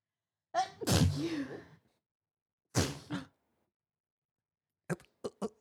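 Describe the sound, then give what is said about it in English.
A person sneezes once, loudly and explosively, and the sound trails off, followed by a couple of shorter breathy bursts and a few brief sharp sounds. “I have to sneeze.”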